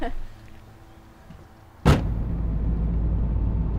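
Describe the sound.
A car drives off after a single sharp thump. A loud, steady, low engine and road rumble then continues to the end.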